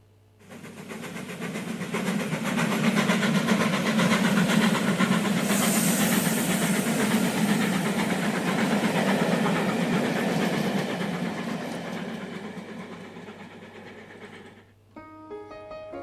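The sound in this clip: A train runs on rails as a segment transition: steady rumbling and hissing clatter swells in, holds for a long stretch, then eases down, ending with a few musical notes.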